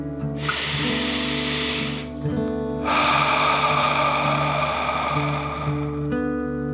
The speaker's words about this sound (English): Breathe in through your nose and out through your mouth.